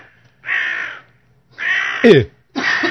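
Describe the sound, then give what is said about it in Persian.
A crow cawing: three harsh, drawn-out caws separated by short silences, the last one cut off at the end. “اومد کلاق.”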